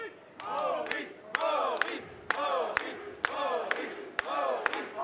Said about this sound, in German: Seine Fans hier lassen sich hier nicht davon beeindrucken. Die sind hier auch genau neben mir. Also das ist hier ein bisschen laut.